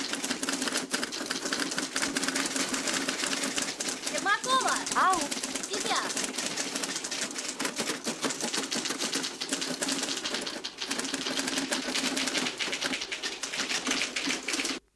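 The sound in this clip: A typewriter clatters with rapid, continuous keystrikes at an even, busy pace for the full length, with brief small dips between runs of typing.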